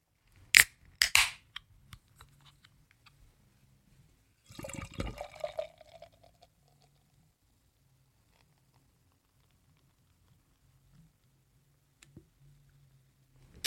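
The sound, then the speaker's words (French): A New England IPA beer poured into a glass: a couple of sharp clicks, then a brief gurgling, splashing pour midway through, with faint scattered sounds and long quiet stretches around it. “Bien voilà, je viens de la verser. Alors l'aspect, c'est totalement évidemment attendu. New England IPA euh, dans toute sa splendeur.”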